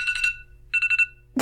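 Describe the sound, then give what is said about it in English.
A phone alarm reminding someone to take medication goes off as short high electronic beeps: a quick group of pulses, a pause, then four more pulses, followed by a short burst of noise. “Oh, that's my alarm.”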